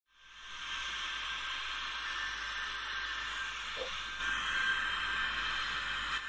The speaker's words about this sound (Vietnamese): Những âm thanh mà quý vị đang nghe là hệ thống máy móc đang được vận hành tại nhà máy đạm và hóa chất Hà Bắc.